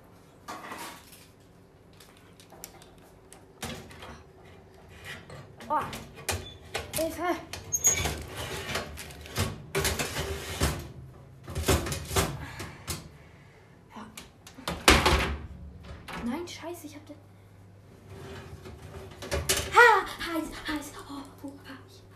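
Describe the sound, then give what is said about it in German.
A cake goes into a hot oven, with the oven door knocking and a baking pan clattering in many short, sharp bursts, separated by quieter gaps. “und jetzt muss ich den Kuchen nur da rein tun. Also in den Backofen. Boah, ist der warm.”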